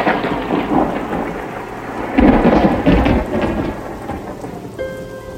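Thunder rumbles over steady, heavy rain outside a hospital window in Bosnia. The downpour hisses throughout, and a loud, rolling thunder surge builds past the middle before easing back into the constant rain.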